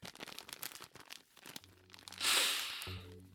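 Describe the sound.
A takeout delivery bag from a new restaurant is opened with crinkling and tearing: a run of soft rustling crackles builds to a loud, broad tearing rush near the end.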